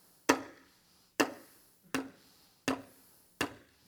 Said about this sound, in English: So, he got the screw in, right? What you couldn't see was the screw was all bent over, right? He had to change his angle of attack, right? But he got the job done.